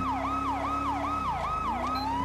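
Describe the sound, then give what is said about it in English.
A police car siren in a police driving video game wails in a fast, repeating fall-and-rise pattern, about six even cycles, loud and steady over a low engine hum. “Let's get some sirens going.”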